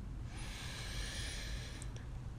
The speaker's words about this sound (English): steady breath and concentrate on your body. Okay, breathe with me, baby. In